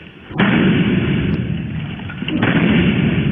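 Gunshots fired by a SWAT police officer moments after entering during a warrant search, heard as heavy, muffled booms with dense rumbling noise sustained between a few sharp onsets.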